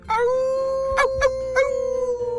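A werewolf howls in one long, sustained, mid-pitched tone with a few short yelping breaks, then trails off in a wavering tremble.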